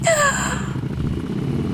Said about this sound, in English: out of nowhere you hear a very, very loud noise. What kind of noise? It's the sound of a motorbike.